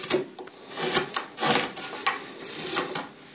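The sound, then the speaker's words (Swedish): A knife whittles the wooden mouthpiece of a horn, giving dry rasping scrapes in repeated short strokes at a fairly steady rhythm. The scraping is moderately loud and heard alone. “Jag ska bara tälja fram lite grovt ytterformen på munstycket så ska man kunna provspela den här.”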